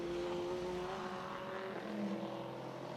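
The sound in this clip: A race car engine drones past on the track during a sports car race at Elkhart Lake. The tone is faint and steady, and it drops lower about midway through.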